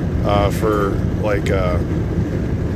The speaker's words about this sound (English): It's probably not really good to do this podcast while I'm driving, but you know what, whatever, fuck it. I do it enough.